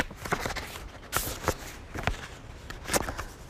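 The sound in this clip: Paper crinkling and tearing as an envelope holding a letter is opened. A few sharp, crisp bursts stand out over soft handling noise, fairly quiet, with no talk.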